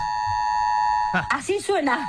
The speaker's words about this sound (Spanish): ¿Y la sirena? Yo estoy en un edificio que no... La verdad que estoy en un piso alto, pero no... A ver, escucha, a ver, sentí. Ahí está, esto es del pasillo, ¿eh? Ahí está.